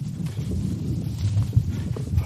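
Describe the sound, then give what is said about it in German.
Hoofbeats of horses galloping on a riding safari in the Okavango Delta, heard as a steady, low, muffled thudding with a few heavier thumps and no clear count. “So, jetzt galoppieren wir gleich weiter.”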